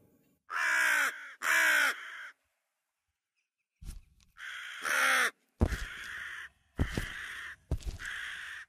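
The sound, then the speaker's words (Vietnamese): A crow caws loudly, a series of harsh, raspy calls separated by short silent pauses. “một con quạ từ đâu bay liệng tới xà đậu xuống trước cái cột gỗ, rồi nó mở miệng kêu lớn lên những âm thanh đầy đáng sợ. Quạ kêu”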